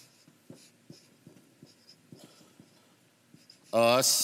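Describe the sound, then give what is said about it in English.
Writing on a board: a steady series of short, faint scratching strokes in a regular rhythm, followed by a voice that begins speaking at the end. “I'll just go ahead and write it on the board.”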